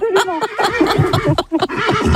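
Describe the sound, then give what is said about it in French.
A person's voice imitates a horse neighing, producing a loud, quavering, whinny-like call that wavers in pitch and breaks briefly near the middle before carrying on. “C'est une belle imitation, hein. Je sais bien faire le cheval.”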